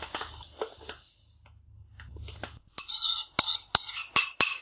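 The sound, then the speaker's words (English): Metal clinks as sugar goes into a pot of cream: soft scraping and taps give way to a quick run of many sharp, bright strikes of a utensil against the pot. “So in goes the sugar.”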